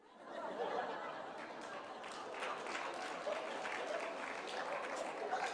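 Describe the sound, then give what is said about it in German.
Audience applause, with the women in a sermon or seminar crowd clapping: a steady, dense wash of hand claps that swells in quickly and holds at an even level for several seconds, with no voice rising above it. “Warum klatschen nur die Frauen?”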